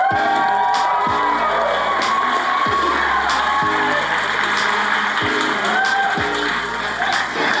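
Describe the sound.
Audience cheering, whooping and clapping as a guest is welcomed onto a live show, a loud, sustained mix of shouts and applause that stays energetic throughout.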